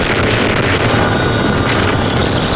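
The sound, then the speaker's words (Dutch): A Dutch Chinook helicopter fighting a large wildfire in Belgium, heard as a loud, dense, steady rotor and engine roar that holds at the same level for the whole clip. “Dit is het geluid van de Nederlandse Chinook-helikopter die helpt bij het blussen van de grootste natuurbrand van de afgelopen 100 jaar in België.”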